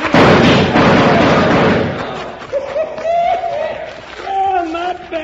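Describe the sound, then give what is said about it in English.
Gunfire in a shootout: a dense, loud burst of shots fills the first two seconds, then gives way to quieter, sustained tonal sounds. “that was right nice shooting.”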